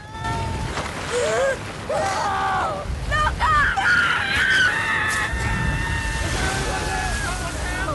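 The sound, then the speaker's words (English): Rushing brown, foaming floodwater roars as a loud, steady wash of noise, with voices shouting and crying out over it throughout. “Maria swept along in the brown and white foaming water.”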